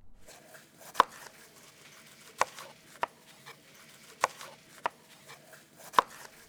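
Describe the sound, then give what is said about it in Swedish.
Knife chopping yellow and red bell peppers into strips on a cutting board: six sharp, distinct cuts at uneven intervals over a faint background. “Under tiden skiva den gula och den röda paprikan i stavar.”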